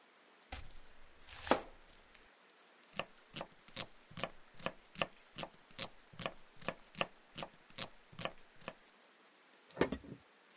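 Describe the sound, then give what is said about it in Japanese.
A knife chops food on a cutting board. After two separate early strikes come many crisp, evenly spaced chops in a quick steady rhythm, then a brief pause and two final cuts, with no voices. “もう切り終わった？って慣れてるやん。”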